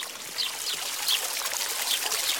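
Water pouring into a jug being filled, a steady hissing stream with light trickling and splashing, continuous from start to end with no talk.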